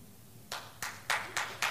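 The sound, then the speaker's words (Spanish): An audience clapping in unison: five sharp collective claps at a steady, even pace, fairly faint, following a brief quiet opening. “Los hombres pueden aplaudir también, porque esto es al revés también, para los dos lados.”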